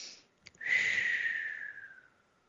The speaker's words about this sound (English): let me just give it, take a second, take a deep breath.